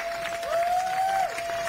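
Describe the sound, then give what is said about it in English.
A round of applause welcomes a guest onto a show, a steady patter of clapping from a crowd with a held tone sounding through the middle. “Let's get a round of applause for the boy Blue Da Vinci.”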